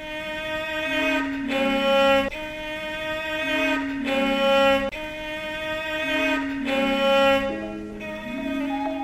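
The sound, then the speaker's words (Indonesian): A Javanese rebab, a bowed string instrument of the gamelan, plays a sustained, nasal melody whose notes slide between pitches. It comes in phrases of a couple of seconds separated by brief breaks, loud and alone. “Kalau rebab, bunyinya seperti ini.”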